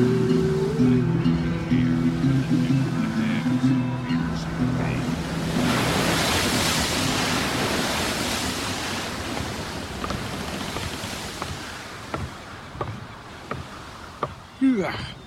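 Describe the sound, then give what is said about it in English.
Ocean waves lapping at sea, a soft broad wash of surf that swells in the middle and slowly fades, followed by a few sharp knocks and creaks near the end. “The lulling of the waves does lend itself to rest.”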